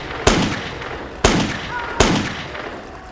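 Gunshots from a five-shot prototype revolver: three loud, sharp reports, each trailing off into a ringing tail, spaced unevenly with the last two closer together.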